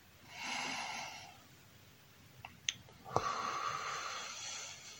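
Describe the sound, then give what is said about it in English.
Breathing out through pursed lips gives a soft, airy hiss. Two long breathy rushes are separated by a pause with faint clicks, and the second is longer and steadier, quiet and with no talk. “Pushing out all that air by pursing your lips until you squeeze the air out from the bottom of your lungs.”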